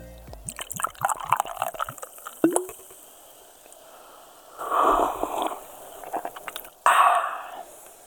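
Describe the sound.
Wet sips and gulps of Fanta being drunk from a glass, coming in short squishy bursts with quiet pauses between them.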